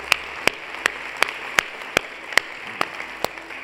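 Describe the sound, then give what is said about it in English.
A church audience claps to welcome new believers, producing steady, rhythmic claps in unison at an even pace over a soft background wash. “Can we just put our hands together and welcome new believers into God's family?”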